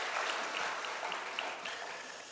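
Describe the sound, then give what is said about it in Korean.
A church audience applauds to give glory to God, producing a steady, even wash of many hands clapping that tapers slightly toward the end. “하나님께 영광의 박수로 화답하시겠습니다.”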